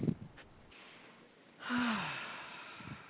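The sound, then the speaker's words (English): A deep breath being drawn: one long, airy rush of breath swells up just after the midpoint and slowly tapers away, with a faint low voiced tone sliding downward at its start, following a quiet stretch. “as Tina says, just take a breath”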